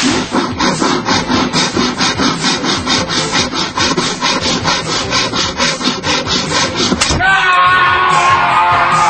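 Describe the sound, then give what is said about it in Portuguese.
A knife saws through a piece of wood in loud, rapid rasping strokes repeated many times in a steady rhythm, shifting to a smoother continuous scraping near the end. “E continuam afiadas para serrar este pedaço de madeira.”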